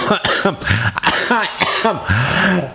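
A person gives a rapid run of harsh, loud coughs mixed with throat clearing, several sharp bursts with rough, voiced edges.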